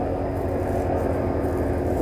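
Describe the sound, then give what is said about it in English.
Low-flying airplane passing overhead, a dense, loud rumble of engine roar that stays even and unbroken for the full two seconds. “Oh, hello, low-flying plane. What are we doing here?”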